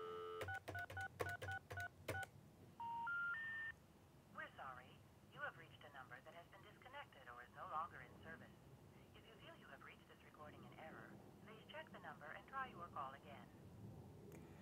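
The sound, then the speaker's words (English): Telephone touch-tone dialing on a phone system, calling a number that is not in its directory: a quick run of keypad tones, then three rising tones, followed by a voice speaking a recorded message. “And now what happens if you dial a number that isn't in its directory?”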